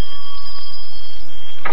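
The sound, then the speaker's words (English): A bell rung to summon a late breakfast gives a loud, sustained, steady high ringing tone with no break, ending in a short burst of brighter noise. “feeling put out and hungry, he rang the bell.”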